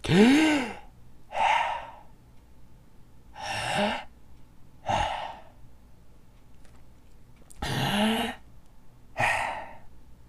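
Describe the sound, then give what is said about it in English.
Deep breaths taken together in a slow, steady rhythm, as six distinct airy breath sounds separated by quiet pauses, with no talk between them. “Let's all take three big breaths and think of three things we're thankful for.”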